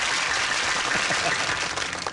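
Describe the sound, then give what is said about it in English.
A recorded applause sound effect plays as a short, dense wash of steady clapping, loud and even throughout. “Our audience is going crazy here today. I'm so tired of the clip. It's such a honky sound, isn't it, guys?”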